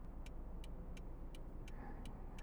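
Cabin noise inside a moving car, a quiet, steady low road rumble with six evenly spaced light ticks running through it.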